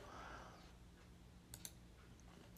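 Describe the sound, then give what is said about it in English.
A computer mouse clicks while placing a trading order, two quick faint clicks in close succession against a quiet background hum. “So I'm going to click on this. I am going to review closing order.”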